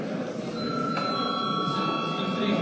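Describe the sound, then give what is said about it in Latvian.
An electric bell rings to call a parliamentary vote, a steady sustained ring that starts about a second in and continues unbroken to the end over a busy background murmur. “pieprasa balsojumu, tātad lūdzu zvanu.”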